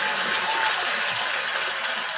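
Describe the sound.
Applause rises for a person, invited by the host during a talk: a dense, steady wash of many hands clapping that holds at an even level for the whole stretch without a clear break.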